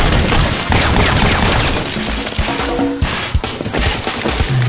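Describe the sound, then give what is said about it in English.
Gunshots fired at someone: several sharp, loud reports cut through a dense, continuous roar of noise, with a couple of distinct cracks standing out near the end. “What the hell are you shooting at me?”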